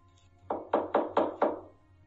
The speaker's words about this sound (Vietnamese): bỗng có tiếng gõ cửa